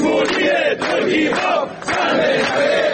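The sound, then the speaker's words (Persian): Protest chants from Haft Tappeh sugarcane workers gathered in Shush: a dense crowd of raised voices shouting together in rhythmic bursts, with brief dips between phrases. “مسئله‌ای که در شوش با شعارهای کارگران نیشکر هفت تپه هم شنیده شد.”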